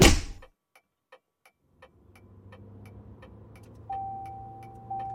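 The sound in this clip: A car is heard driving off: a loud burst at the start, then steady, evenly spaced ticking like a turn signal, a low engine hum rising from about two seconds, and a steady high tone in the last second.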